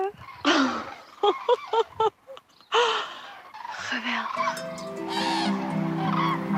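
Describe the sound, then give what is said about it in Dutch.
Cranes call as a flock of about fifteen flies overhead at sunrise. A man talks over the first part, then loud, harmonic trumpeting honks carry on steadily to the end. “Ja, wat een gelukzalig moment. Kraanvogels boven je hoofd.”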